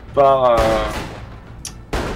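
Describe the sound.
Gunfire sound effects play during a tabletop role-playing game about a gunfight around a wagon. A few sharp, loud shots with decaying tails stand out, and a short tonal sound comes just before the first one.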